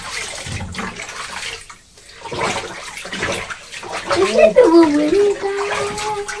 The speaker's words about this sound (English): Rinsing right, look. I'll just use the sponge around your neck.